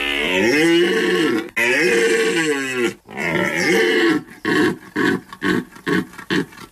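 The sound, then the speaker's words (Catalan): Red deer stag bellowing during the rut in the Pyrenees: three long, loud, harmonic roars, then a run of short, rhythmic grunting bellows, with no other sound. “És la brama del cèrvol.”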